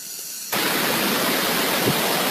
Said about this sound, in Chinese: 大家应该可以听到现在这个蝉叫，这个是秋蝉了，秋蝉鸣，蝉叫的这种蝉声呢依然是非常的响亮。